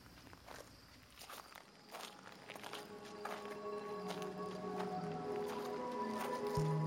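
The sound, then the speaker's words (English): Footsteps crunch along a gravel stone ramp winding through the woods on a dark night, many steady steps in an even rhythm, gradually growing a little louder. “There's a walking ramp that's gravel stone that winds up and through the woods. There's no light because it's on an off night from the theater.”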